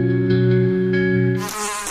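A housefly buzzes with a loud, steady, droning hum that holds an even pitch throughout, with no voices.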